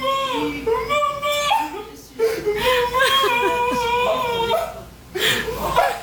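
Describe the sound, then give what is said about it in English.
A soccer player sobbing openly as he sees his mother for the first time after her visa problem was resolved, with continuous wavering, high, voiced sobs and whimpers. “Is that him crying? That was him, yes, sobbing. Uh-huh. Openly sobbing.”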